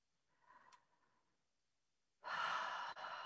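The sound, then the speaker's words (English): Deep breathing during a calming, grounding exercise: a soft, faint breath comes first, then after a pause a loud, long, airy breath, with a tiny break near its end. “So take a moment and just breathe.”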